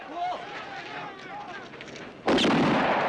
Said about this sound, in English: A watchtower guard shoots at his feet.